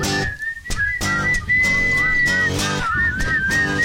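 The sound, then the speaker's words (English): A person whistling a tune, a clear, loud tonal line holding long notes and sliding between pitches, with brief breaks between phrases. “I'll see you whistling.”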